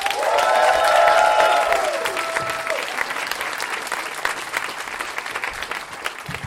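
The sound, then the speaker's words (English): An audience at a live storytelling show applauds a performer being welcomed to the stage. Dense, loud clapping swells at first and then slowly fades, still continuing to the end. “We can clap for that.”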